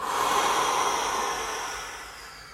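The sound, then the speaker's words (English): A long, airy breath during walking breathwork, loud and rushing at first, then tapering off steadily as it ends. “take that big inhale through the nose. Exhale, a bit more force through the mouth.”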